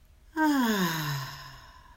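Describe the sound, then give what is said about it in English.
A deep, audible breath out during a guided relaxation exercise, a soft voiced sigh that starts sharply, slides down in pitch and fades gradually. “And take a deep breath in and out.”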